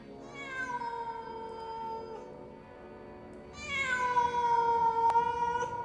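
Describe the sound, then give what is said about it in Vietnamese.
A cat with its fur bristling yowls pitifully in two long, drawn-out harmonic wails. The second wail is louder and higher, and no other sound stands out. “Tiểu Bảo, con mèo đang nằm ở trong giường, bỗng nhảy dựng lên sù lông, kêu lên những tiếng thảm thiết.”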